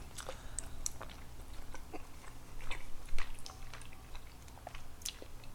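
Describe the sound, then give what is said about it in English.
Biting and chewing of chicken and rice with a hot pepper sauce: many small wet smacks and soft crunchy clicks at an irregular pace, fairly quiet over a low steady hum. “We got some rice. We got some chicken. How's it look to you? How's it smell? Smell it before you take a bite.”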